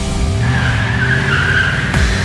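A Subaru Outback car pulls away on a test drive. Its engine note climbs steadily in pitch as it accelerates, a loud, smooth whine that ends with a brief, quick downward sweep.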